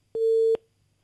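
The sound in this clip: A telephone busy tone after a call has disconnected: a single steady, low, pure beep of about half a second, alone against near silence.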